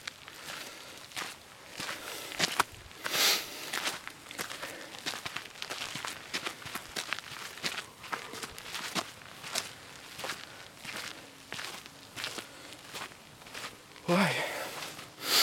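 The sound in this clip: Footsteps of a person walking uphill on a forest path, many steady crunching steps in an even rhythm, fairly faint, with a louder rustling burst near the end.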